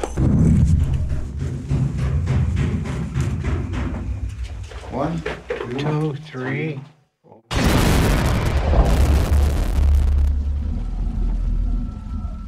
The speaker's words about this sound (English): Fire in the hole!